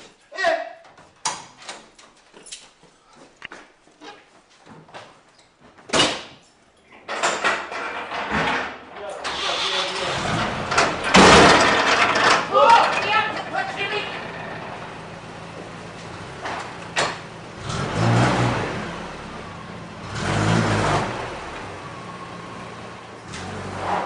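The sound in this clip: Banging on a door: many sharp, irregular thuds in the opening stretch, followed by loud talking voices and heavier noise through the rest.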